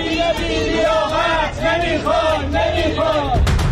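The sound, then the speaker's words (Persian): Esteghlal football fans chant protest slogans against club management outside the club building, many voices in a loud, rhythmic unison that repeats short phrases over and over, with crowd noise beneath. “هواداران تیم فوتبال استقلال برای سومین هفته متوالی مقابل ساختمان این باشگاه تجمع کردند. هواداران استقلال به سیاست‌های نقل و انتقالاتی از دست دادن ستاره‌ها و عدم جذب بازیکنان بزرگ اعتراض دارند و علیه مدیران این باشگاه شعار دادند.”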